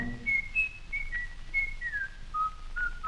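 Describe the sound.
A person whistles a melody, a steady run of clear, bright high notes with short glides between pitches, carried alone without any talking.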